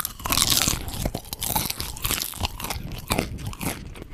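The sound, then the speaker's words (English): Several popcorn kernels, four at once, crunch between the teeth in a dense run of crisp, crackling bites and chewing that continues without a break, fairly loud and close. “For the next 10 seconds, we're going to do a little ASMR of popcorn crunching.”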